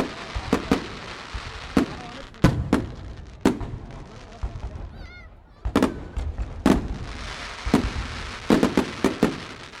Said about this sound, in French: entra dans une magnifique galerie qui régnait le long d'une grande rivière sur laquelle on tira un feu d'artifice surprenant.